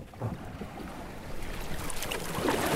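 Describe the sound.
Paddling a small boat along the New River, with continuous water wash and gusty wind buffeting throughout, and a few soft splashes near the end; no voices.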